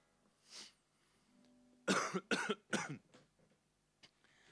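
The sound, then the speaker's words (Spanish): Coughing from a person with a winter cold and mucus, a faint rasp followed by three harsh, quick coughs in a row, with a small trailing sound after. “Cantar a través de la tos y los mocos es como el paradigma del invierno, ¿no?”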